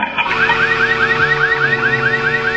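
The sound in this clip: A warbling car-alarm siren stands in for the sound of a can of peas being opened, looping through many quick, even, rising sweeps, loud and alone without voices.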